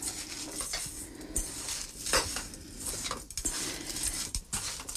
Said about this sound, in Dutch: Dus ik meng hier voort de krumbel.